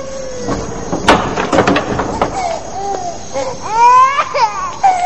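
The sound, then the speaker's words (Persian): A baby crying, with loud, wailing, tonal bursts that swell near the end, preceded by sharp clicking and knocking sounds. “چرا گریه میکنه؟”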